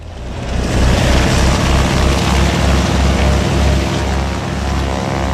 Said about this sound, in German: Propeller laufen und die Maschinen waren heiss für den Start der Flugshow Wings & Friends zu Grenchen.